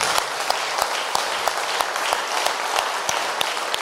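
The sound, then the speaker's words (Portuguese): A church audience clapping in steady, rhythmic unison, crisp claps landing about three times a second over a bed of dense applause. “Palmas para Jesus.”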